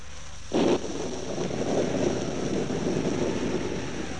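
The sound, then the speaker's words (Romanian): Wind of an approaching storm gives a steady, broad rushing roar with one brief louder gust near the start. “Se apropie furtuna.”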